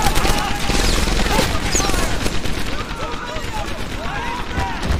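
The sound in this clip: Gunfire in the video game Medal of Honor Airborne: loud, rapid overlapping shots and bursts form a constant barrage, with voices mixed in among the shooting.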